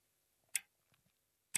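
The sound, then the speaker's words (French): Clock ticking on a sideboard in a quiet living room: two sharp, bright ticks about a second apart, with a few faint softer clicks between, alone in near silence. “Dans la maison, tout le monde dort. Le calme dans le salon est olympien. Seul résonne le tic-tac de l'horloge posée sur le buffet.”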